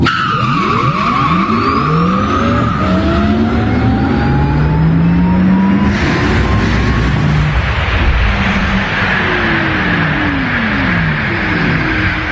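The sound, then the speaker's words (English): A car sets an indoor speed record of over 100 mph in a New Orleans stadium: a loud, continuous engine roar with sweeping pitch and screeching tire squeal, alone. “the one in New Orleans, and it is setting the indoor speed record of over 100 miles an hour, and it goes like this.”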